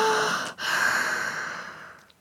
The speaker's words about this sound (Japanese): 息が荒くなってるよ。リラックスして、深呼吸深呼吸。はい、吸って